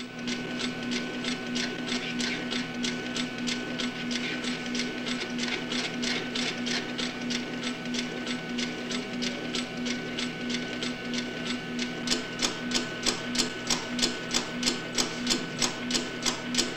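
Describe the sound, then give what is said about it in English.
A telecopier fax machine in an office clunks and buzzes, with a steady electric hum under a rapid, regular series of mechanical ticks that grow sharper and more distinct toward the end. “They all stand, almost as if in reverence, as the machine, which is marked telecopier, clunks and buzzes.”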